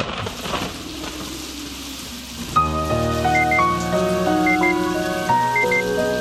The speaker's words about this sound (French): Il y a des ambulances puis de la pluie.